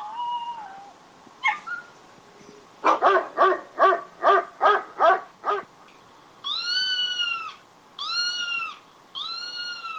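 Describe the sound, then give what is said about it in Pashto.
Stray dogs in Turkey barking in a rapid, evenly spaced run of sharp barks, followed by three longer, drawn-out tonal calls with strong harmonics, with no talk. “ترکیه یو له هغو هیوادو څخه دی چې کوڅه ډبه، سپی او بې څښتنه پیشوګانې ډېرې لري.”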